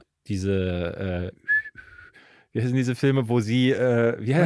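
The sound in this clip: A person whistles a short film melody, a brief high tuneful phrase set between stretches of talk.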